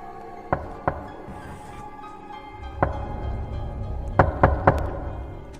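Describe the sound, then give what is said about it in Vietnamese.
Soft, dry knocks on a door to an outside porch, heard alone over a low rumble: two knocks, a pause, a single knock, then three in quick succession. “Cô lắng tai nghe, có tiếng gì đó là tiếng gõ cửa, khe khẽ.”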